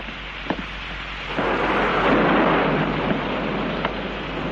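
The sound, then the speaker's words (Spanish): A thunderstorm: a steady hiss of rain, then a deep rumble of thunder swells suddenly and stays loud and broad to the end, with a few faint sharp taps over the top. No voices are heard. “Con esta tormenta, ¿dónde estarán los demás?”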